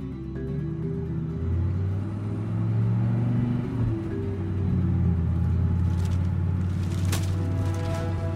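Car driving down a road, a continuous loud low engine rumble whose pitch shifts up and down as it runs, with no voices.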